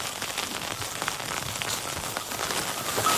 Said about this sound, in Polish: Pogoda jest bardzo zmienna. Słońce i deszcz.